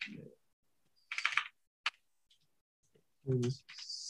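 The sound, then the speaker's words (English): Computer keyboard typing for a Google search comes in a few short bursts of keystrokes and clicks separated by quiet gaps, with a brief spoken voice near the end. “I don't know if you're able to Google this. I'm just going to click Google and see.”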